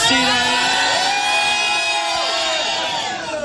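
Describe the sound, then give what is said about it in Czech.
A studio audience shouts together, many voices merging into one loud, sustained roar that holds steady for about three seconds and eases off slightly at the end. “A aby jsme vám to krásně ukázali, pojďme tady všichni ve studiu zakřičet, kolik je tady lidí.”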